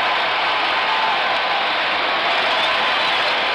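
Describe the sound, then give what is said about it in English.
A stadium crowd roars in a steady, dense wash of cheering after the game-ending strikeout in the ninth inning of a World Series game between the Cardinals and the Tigers. The roar holds at an even level throughout. “It's fantastic. I mean, the fans just stood and cheered you.”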